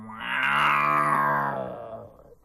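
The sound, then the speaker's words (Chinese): A storyteller's voice imitates the roar of a golden-eyed, striped tiger. A single drawn-out growling call swells loud, holds, then fades over about two seconds. “今天在这百花岭中出现了一只金睛吊额斑斓猛虎”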